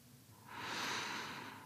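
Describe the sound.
A single deep breath taken during a calm guided meditation, a soft, airy rush that swells in and holds steady, quiet and alone without any voice.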